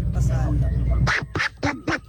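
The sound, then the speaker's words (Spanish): A voice imitates Donald Duck, giving four squawky, nasal quacking bursts right after a stretch of ordinary talk. “Ahí está el pato Donen.”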